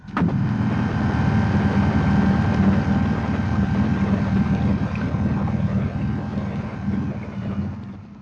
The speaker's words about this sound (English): And here is a 9-inch blower.